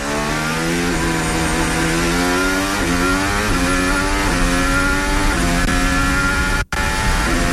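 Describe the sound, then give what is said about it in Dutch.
Onboard racing car engine on the Baku street circuit: a loud, continuous high-revving drone whose pitch shifts in repeated steps, with a brief cut near the end. “Hier zijn we aan boord. En de geluiden daarbij ook van Isaac Hadjar. Richting het smalste deel in Baku.”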